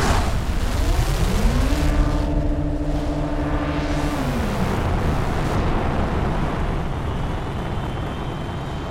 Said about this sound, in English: 3, 2, 1. Blast off.